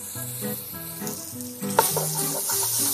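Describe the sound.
Tomato paste and red pepper flakes being stirred into hot oil give a steady, crackling sizzle with soft stirring sounds, loud and unbroken throughout, with no voices.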